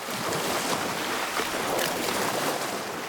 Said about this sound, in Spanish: Las olas arrastran suavemente al animal mar adentro.